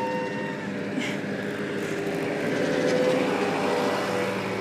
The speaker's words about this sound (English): Construction vehicles. There's a lot going on.